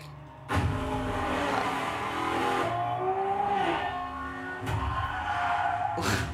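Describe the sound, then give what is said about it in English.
A car braking hard with tires skidding in a movie chase: loud engine and tire roar cut in abruptly, a squealing whine rises and bends through the middle, then a second surge of noise comes near the end. “Vin Diesel has to slam on his brakes.”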